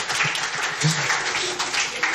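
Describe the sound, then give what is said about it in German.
Applause, a dense, steady patter of many hands clapping that runs for about two seconds without a break. “Schön, da kann man mal klatschen.”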